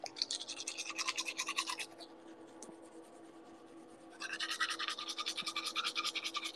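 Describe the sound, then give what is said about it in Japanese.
Teeth being brushed with a toothbrush: fast, rhythmic scratchy scrubbing strokes, quiet and close, that pause for about two seconds in the middle before resuming at the same brisk pace, with no voices. “歯磨こにゃ。”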